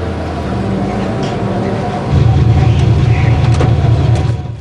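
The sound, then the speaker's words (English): Engine rumble of a pickup truck pulling away from a dusty roadside by a petrol station: a steady low drone that swells louder about halfway through and stays strong. “Ryder gets into a pickup truck and it drives away.”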